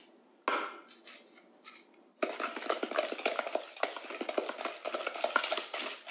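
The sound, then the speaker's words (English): A spoon scrapes down the sides of a mixing bowl. A few short, scratchy strokes give way to steady, rapid scraping that continues to the end. “And you might need to scrape your bowl. Scrape down your spoon.”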